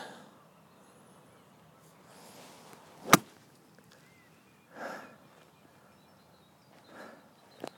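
A golf club strikes the ball from an awkward lie with the golfer standing below the ball and gripping the club short: one sharp, loud crack stands out alone against faint background sound.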